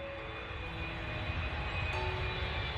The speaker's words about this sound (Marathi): शिव असं म्हणाला आणि तेवढ्यात विमानाने आकाशात झेप घेतली